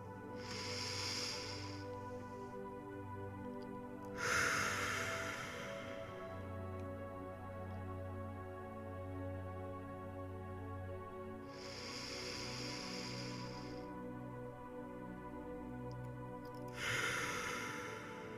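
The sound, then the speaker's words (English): Slow, deep breaths, quiet, airy and spaced several seconds apart over a soft, steady tonal drone, with one breath swelling noticeably louder than the others. “Let's take three deep breaths together.”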